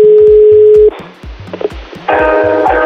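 Telephone dialling tone before a call: a steady, loud pure tone cuts off, a short quiet gap follows, and a buzzy ringing tone starts over a repeating low rhythmic beat.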